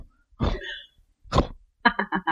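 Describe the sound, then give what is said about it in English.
A human voice imitates a jackal's snort: two short, breathy, rasping bursts, then a quick run of several grunting pulses. “Snort from over in the direction of where the jackal is at.”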